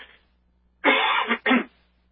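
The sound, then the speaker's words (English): Two harsh coughs in quick succession, a longer rasping burst followed by a short one, heard alone without talk. “excuse me, I got a cough here.”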